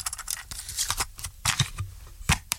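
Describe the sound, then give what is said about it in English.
A cassette tape is pushed back into its cassette box with a quick run of small clicks, taps and rattles, punctuated by a few sharper snaps. “And this is the sound of a cassette going back into the cassette box.”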